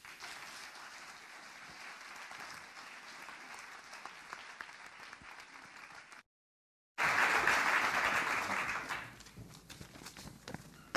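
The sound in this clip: Audience applause welcoming two speakers at the start of a talk and discussion, a dense, steady clatter of clapping that breaks off briefly, then resumes louder before easing back to a lighter patter.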